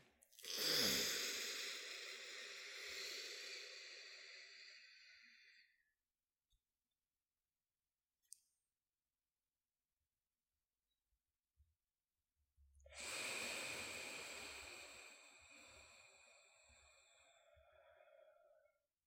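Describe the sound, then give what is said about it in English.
Slow pranayama breathing: a long, airy inhalation through the left nostril, the right nostril closed with a thumb, lasting about five seconds. A near-silent hold with a few faint clicks follows, then a second long, soft breath. “I have my thumb on my right nostril, and I'm going to breathe in.”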